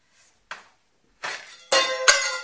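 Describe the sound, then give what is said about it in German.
Pliers are thrown down onto the floor: a couple of light taps, then several loud, clattering metallic impacts that ring briefly. “Hast du es runtergeworfen? Eine Zange ist das, ne?”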